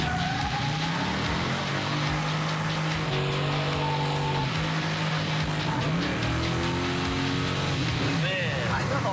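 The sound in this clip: An El Camino drives hard with plenty of power, its loud engine note climbing and dropping as it revs and changes speed, a steady roar over the whole stretch.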